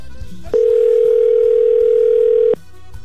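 Telephone ringback tone on an unanswered call: one loud, steady, continuous tone lasting about two seconds that starts and stops abruptly, with faint background noise before and after.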